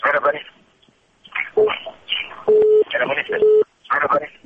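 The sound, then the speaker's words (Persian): A call-in phone line to a radio show cuts off, leaving a few steady, flat disconnect beeps that alternate with bursts of voices. “متاسفانه تلفن از اینو قطع شد.”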